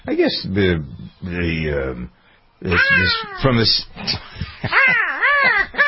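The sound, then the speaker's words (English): Crows cawing outside, a loud run of harsh, drawn-out calls in quick succession with brief pauses between them. “No, those are just the birds outside. Some crows making a lot of racket.”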